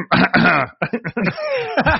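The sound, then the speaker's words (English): Throat clearing from a man with an already raspy voice: several loud, gravelly, voiced bursts follow one another closely, harsh and rough, ending in a longer drawn-out rasp. “I got to clear my throat to try to speak as clearly as possible.”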